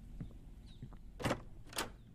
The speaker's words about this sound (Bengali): আপাতত দরজাটা খুলে দাও